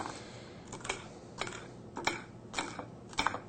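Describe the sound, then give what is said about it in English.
Knife cutting food on a ceramic plate: several crisp clicks and scrapes come in irregular bursts over a quiet background, with no talking. “See, and I'm cutting on a plate. You don't have to have a cutting board. Ceramic, easy to cut on.”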